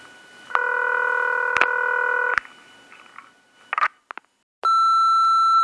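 Touch-tone beeps of a telephone number being dialed: a long dual tone, a few short chirps, then a steady higher tone at the end, with no talking.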